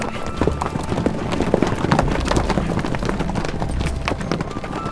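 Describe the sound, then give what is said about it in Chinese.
Galloping hooves of a horse-drawn carriage, a fast, steady clip-clop rhythm that stays loud and continuous throughout. “后羿听了，立刻坐上一辆马车，飞快地出发了。”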